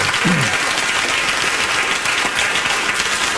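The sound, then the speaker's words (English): A crowd cheers and applauds loudly and continuously, dense clapping filling the whole three and a half seconds without a break. “See, the crowd cheered for that.”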